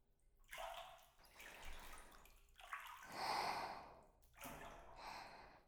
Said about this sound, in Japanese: 肩にお湯かけてあげる。気持ちいいでしょ？